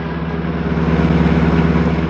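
A taxi's car engine idles with a steady low hum and a regular throbbing pulse, growing slightly louder after the first part and then holding even.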